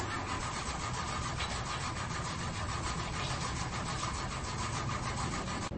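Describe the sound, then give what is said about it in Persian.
A car engine cranks but fails to start, with a suspected clutch plate fault: a loud, continuous churning drone with rapid pulsing runs throughout and never catches into an idle. “داداش از صفحه کلاجشه، متوجهی؟ آقا استارت نمیخوره.”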